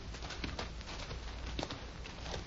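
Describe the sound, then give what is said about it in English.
Horse hooves clip-clop as a horse is led away from a wagon, a quick, irregular run of dull knocks that carries on steadily through the whole stretch with no voices. “Lieutenant, Bailey's taking your horse.”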